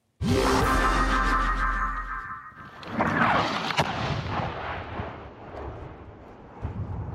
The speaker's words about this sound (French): L'armée russe bombarde, sans relâche.